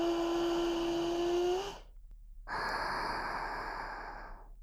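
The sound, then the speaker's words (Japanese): A deep breath drawn in, a loud, long rushing breath, then a brief silence before a second long, steady breath that slowly fades. “大きく息 息を吸って、”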